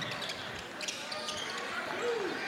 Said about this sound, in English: Again with that dribble.